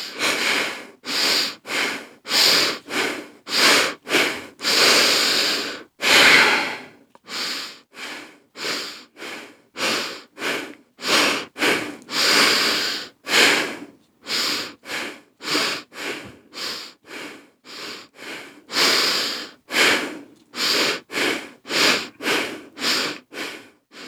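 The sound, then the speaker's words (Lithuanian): Breathing in and out through the nose during a guided breathing exercise. Many steady, airy breaths follow one another in an even rhythm, each separated by a short pause, with no talk. “Nu, visi pratę kvėpuoti pro nosį, tai šį kartą galim pro nosį pabandyti.”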